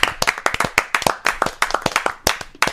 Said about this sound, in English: Maybe just everybody give a big round of applause. Big old round of applause. Including the viewers at home. Including the viewers. Yeah. Don't scam. Start clapping.